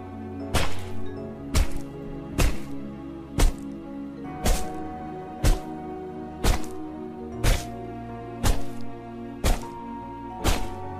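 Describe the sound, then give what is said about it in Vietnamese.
A large stone repeatedly strikes a person's head and body, giving heavy, sharp thwacks at a steady pace of about one per second throughout, with a low sustained tone underneath. “Những tiếng đập chàn chát vang lên. Cứ thế, ông Mẹo cầm hòn đá to đập thẳng vào đầu và người của bà Lam.”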